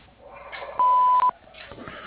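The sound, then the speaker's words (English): An answering machine beep sounds as one steady mid-pitched electronic tone lasting about half a second, ending in a short second blip, over faint line noise. “please leave your name and telephone number after the beep, and we'll get back to you shortly.”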